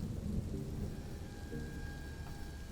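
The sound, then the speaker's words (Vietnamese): Thunder rolls through heavy rain as a low, continuous rumble under dense, steady hissing rainfall, fairly faint and unbroken throughout. “Đúng khi ấy, vang lên từng đợt sấm sét, cơn mưa ào ào đổ xuống, không có dấu hiệu báo trước.”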